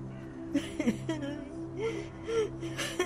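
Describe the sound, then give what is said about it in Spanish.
A woman crying inconsolably: a few broken whimpering sobs and catching gasps, some with wavering pitch, over a steady low hum. “Y Marta llora desconsoladamente.”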